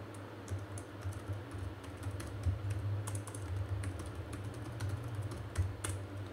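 Computer keyboard typing: many light, irregular keystroke clicks run steadily throughout over a constant low background hum, with no talk.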